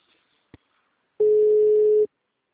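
Ringing tone of an outgoing telephone call: a faint click, then one steady mid-pitched beep lasting under a second, with no talk.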